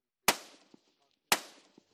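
Gunfire during marine shooting practice at moving targets: two sharp, loud shots about a second apart, each decaying quickly, with a faint thud following each shot.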